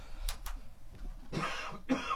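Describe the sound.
A throat-clearing cough, heard as two short, rough bursts close together after a quiet stretch, fairly faint overall.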